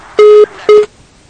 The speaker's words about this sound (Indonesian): Kebetulan terputus. Nah, tapi mohon maaf Umu Hana, ternyata sambungan telepon yang terputus.